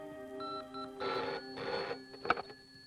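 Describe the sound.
A telephone rings at a police station, giving two short bursts of ringing over a faint, steady background tone, all fairly quiet.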